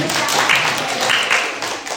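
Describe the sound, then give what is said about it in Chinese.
A church audience applauding: a steady wash of many hands clapping, with voices mixed in. “你看我们的神好不好，来给神一个掌声。”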